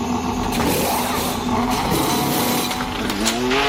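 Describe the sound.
A Formula 1 car accelerates hard at around 408 km/h, and its gear changes are barely noticeable. The loud, continuous engine roar holds a steady tone, then climbs in pitch near the end.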